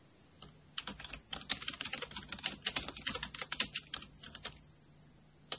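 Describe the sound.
Typing on a computer keyboard as a message is written during an internet radio chat, a quick, irregular run of faint key clicks with short pauses, quieter at the start and end.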